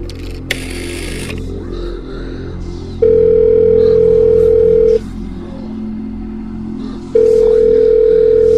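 Telephone ringing tone while placing a call: two long, steady, loud tones separated by a pause, over a low background hum, with a short burst of noise near the start.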